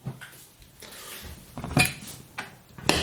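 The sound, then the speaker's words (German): Half a cup of sugar poured from a cup into a pot gives a soft granular rustle, followed by a few sharp clinks of the cup against the pot. “Also in die trockene Tasse, halbe Tasse voll Zucker. Das füllen wir in unser Töpfchen.”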